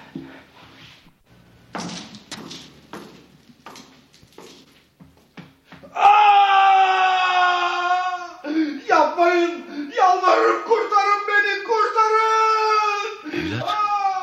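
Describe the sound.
A man wails and screams under torture in a dungeon cell, a former commander of Sultan Uzun Hasan put to death on Shah Ismail's orders. Faint thuds and shuffles come first, then loud, sustained, wavering cries rise and break repeatedly.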